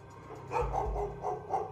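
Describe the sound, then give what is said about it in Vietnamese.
A neighbour's dog barks in a quick string of sharp, mid-pitched barks, fairly loud and steady, with no voices. “cho đến khi có tiếng con chó nhà gần đó sủa giống cả lên.”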